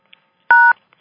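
A single telephone keypad tone, pressed to mute callers on a conference line, sounds as a short, clear, two-pitched beep, set between a few faint clicks.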